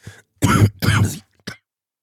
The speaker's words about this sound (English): Excuse me. Hold on one sec. Man, I've been fighting this. I'm pretty much over it now, but I had this cough for about 3 weeks.